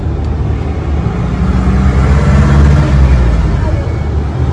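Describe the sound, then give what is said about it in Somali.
A truck engine, used to carry deported people in Somaliland, gives a loud, steady low rumble that drones continuously under a broad, noisy hiss. “Gaarigaas waa baabuurta loo yaqaano candabeydka ama candabeylaha.”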